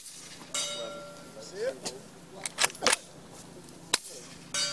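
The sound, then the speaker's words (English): Sharp, muffled cracks and clicks come from a suppressed rifle firing subsonic ammunition, with bullets striking a target. A few short, snappy transients stand out over a faint, steady low hum. “Here's the same gun as before with a silencer and subsonic ammunition.”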